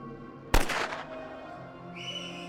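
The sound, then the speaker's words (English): A single sharp gunshot from drunken soldiers firing after surrender: one loud, abrupt crack that fades over about half a second against a steady background. “After surrender, the Nazis were drowning their sorrows with alcohol when they started drunkenly firing.”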